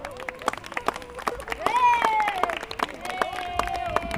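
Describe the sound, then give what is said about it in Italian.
Scattered audience claps and voices welcoming a performer to the stage at an open mic night. Irregular, sharp claps stand out under continuous shouting and talking from the crowd. “Pronti, accogliete sul palco con un bel applauso”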